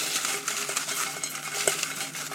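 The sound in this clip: Paper draw slips being mixed for a prize draw: a dense, continuous rustling and shuffling with small scattered clicks throughout and no talk.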